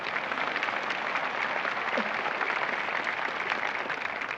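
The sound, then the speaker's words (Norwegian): Audience applause for children who have just sung, a dense, steady wash of clapping that holds at an even level for the whole stretch. “You know, first of all, I got to share this applause with them children. Didn't they really sing that piece? Now give it to them!”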